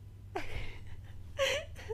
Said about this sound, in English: Yeah, don't mind me. I'm yawning my ass off.